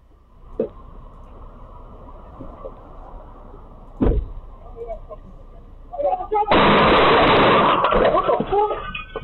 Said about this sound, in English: They roll up. Haven't even talked to anybody, go down the window, just start firing.